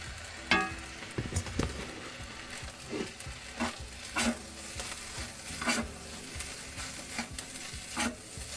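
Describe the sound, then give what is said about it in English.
A big batch of fried rice is stirred in a hot pan, with a soft sizzle running beneath many repeated scrapes and tosses at a fairly regular pace, all fairly quiet. “That is a big thing of fried rice. There's four of those, you know.”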